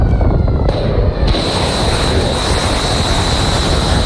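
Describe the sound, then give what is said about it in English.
Tomahawk cruise missiles launching produce a loud, continuous roaring rush with a thin, high, steady whine running through it, staying intense the whole time. “Sound of Tomahawk cruise missiles being launched on Wednesday”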